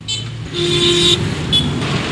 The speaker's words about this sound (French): La circulation est intense.